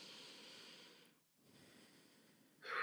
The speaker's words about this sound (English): And take a deep breath.